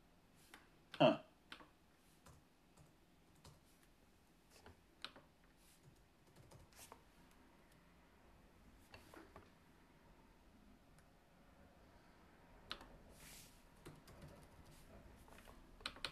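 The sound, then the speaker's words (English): Typing on a computer keyboard while commands are entered into the GNU Octave command window: many faint, irregular key clicks run throughout, with one louder thump near the start. “Okay, well, I'll type it out then.”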